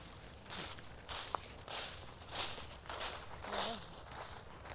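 Footsteps walking up, many soft, quiet steps at a steady, even pace, with faint rustle between them.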